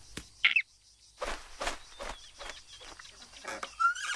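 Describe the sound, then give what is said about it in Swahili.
Harsh bird squawks come as a few raspy, noisy bursts separated by short gaps, with a brief high chirp near the start. “Ndege amefukuza rafiki zangu.”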